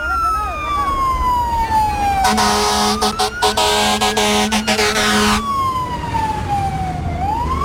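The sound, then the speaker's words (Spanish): A fire engine's siren arrives at a traffic accident, starting with a loud, falling wail, then a long, blaring horn blast with sharp gaps, and finally the wail rising again. “Cuidado que viene bombero, cuidado.”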